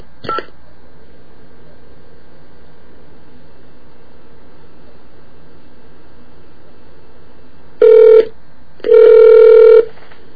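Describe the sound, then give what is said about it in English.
Telephone tones from a number being dialed: a brief click, then after a pause two loud electronic tones, the first short and the second longer. “I hope I dial this right.”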